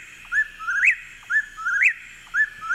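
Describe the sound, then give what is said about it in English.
A whip-poor-will calls alone, giving about three repeated whistled phrases at a steady pace. Each phrase is clear and mid-pitched and ends in a sharp upward-sweeping note. “And here's whippoorwill.”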